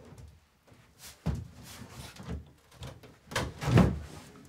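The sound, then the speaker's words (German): A wardrobe is tilted forward and shifted during cleaning work, giving a few soft knocks and scraping bumps. A sharper thump comes early, and a louder, rumbling scrape follows near the end. “Wir müssen mal den Schrank ankippen. Von hinten oder was? Ja, so ein bisschen nach vorne, ja.”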